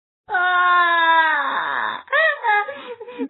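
A bear cub cries plaintively: one long, high, wavering wail with rich harmonics, then a run of shorter broken whimpering cries that rise and fall.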